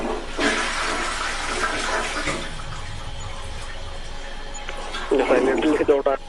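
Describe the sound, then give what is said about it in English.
Toilet flushing after its button is pressed, water rushing into a porcelain bowl on the floor: a loud, broad rush lasting about two seconds that then settles into a softer wash, with a sharper splashy burst near the end. “Yeah, so I think if you just press it, I think the drain will go off. Okay, let me touch it again.”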